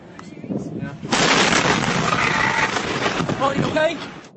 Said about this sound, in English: Stunning video. The West fertilizer plant in the small town of West Texas, about 20 miles from Waco, exploding. The blast and the massive fire that followed